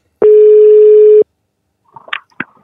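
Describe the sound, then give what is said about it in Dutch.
A telephone call being dialed: a loud, steady single-pitch line tone holds for about a second and stops. After a short gap come a few quick, fainter beeps and clicks. “We moeten er bellen. Heb je een nummer?”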